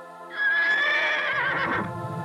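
A horse gives a single high, quavering whinny that holds for over a second, then drops lower and trails off.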